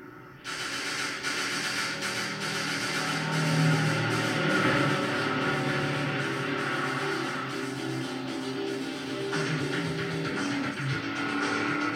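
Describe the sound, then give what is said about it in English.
A continuous loud roar of a 160-horsepower Chevy Camaro in a chase scene. The rushing, hiss-like noise stays steady for about twelve seconds without a break. “Oh shoot, that 160 horsepower Chevy Camaro.”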